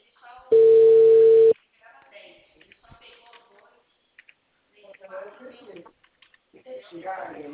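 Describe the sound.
A single steady ringback tone from a telephone call being placed, one flat, even buzz lasting about a second, followed by people talking.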